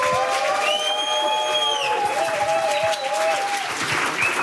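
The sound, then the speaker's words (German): Audience applause with crowd noise welcoming guests onstage, a steady dense wash of clapping that holds for the whole stretch, with sustained tonal notes gliding over it. “Bitte begrüßen Sie sie mit einem herzlichen und tosenden Applaus.”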